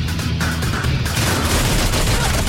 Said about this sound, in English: Reese spins between lockers and opens fire. Wax kicks a trolley of mannequins through the workshop, then lurches from cover, all guns blazing.